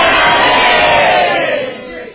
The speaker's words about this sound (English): And you're clapping. Very good. You clap exactly at the right time.